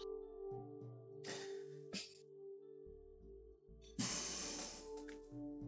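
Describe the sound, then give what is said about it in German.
A paper envelope being opened gives a few soft rustling and tearing bursts, the last one longer and fuller. The sounds are faint and sit over quiet, steady background music. “Warum soll ich den nicht öffnen? Ich bin zwar verkaddert ein bisschen, aber ein bisschen Umschlag öffnen geht immer.”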